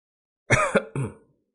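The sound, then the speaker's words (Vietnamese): A man coughs up a mouthful of blood: three harsh, throaty cough bursts in quick succession, the second brief and the last longer and trailing off, alone. “Diệp Phàm ho ra một búng máu, nhẹ nhàng dùng một cái chiếc khăn trắng lau miệng.”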